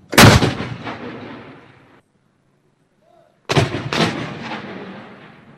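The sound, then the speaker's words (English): Two heavy artillery blasts from a military gun salute in Wellington, each a loud boom trailing into a long rolling decay, separated by a short silence. “The country's defence force has fired a 96-round gun salute in the capital, Wellington, one for every year of her reign.”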